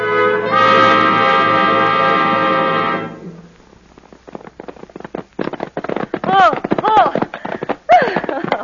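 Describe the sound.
Horses gallop in a race between riders, a rapid, irregular clatter of many hoofbeats that follows a sustained tonal sound, with voices speaking over the hooves.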